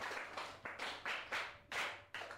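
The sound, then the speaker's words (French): A group of people applauding for themselves during a question session, clapping in about seven sharp, evenly spaced bursts that each fade quickly, like rhythmic clapping in unison rather than continuous applause. “je vous dirais d'applaudir d'abord pour vous-même.”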